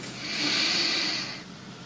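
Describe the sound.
A very deep breath drawn in through the nose during a relaxation exercise: one long, airy, hissing intake that swells, holds and then fades, heard alone.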